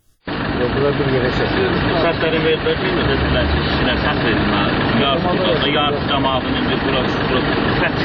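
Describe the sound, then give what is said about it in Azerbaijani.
The engine of a white Mercedes minibus runs steadily at a loud, even level, with people talking over the constant rumble. “Şirkətdir, bu şirkətin avtobusu, bir ofis tutan bir şey qaldı. Bu Mercedes markalı ağ rəngli mikroavtobusdur.”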